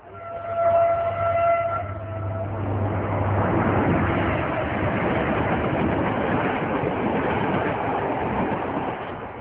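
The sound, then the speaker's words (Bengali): A train of the 8 a.m. service bound for India: a sustained horn-like harmonic tone for about two seconds gives way to a loud, continuous rumble and rattle of the moving train. “সকাল 8টার ট্রেনে রিপন সাহেব এবং তার স্ত্রী রওনা দেয় ভারতে।”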